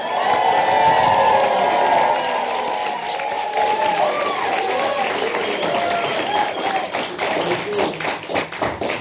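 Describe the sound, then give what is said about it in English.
Audience applause and cheering at a live event. The crowd starts loud, with whoops and yells rising over the clapping, then thins toward the end into more separate, uneven claps. “let's get another check of how much noise this room can produce. One more time. Show me how excited y'all are.”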